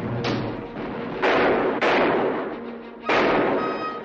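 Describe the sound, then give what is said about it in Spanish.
Four loud gunshots in a shootout from a 1960 Western film, fired at uneven intervals, each a sharp crack followed by a long fading tail. “O'Reilly dispara desde el tejado. Luis entra en otra casa y la atraviesa disparando.”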